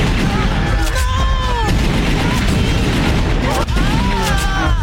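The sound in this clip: Gunfire from the Resident Evil video game as the player shoots zombies, set in a dense, continuous wash of game sound with sharp shots breaking through. Voices talk and call out over the shooting throughout.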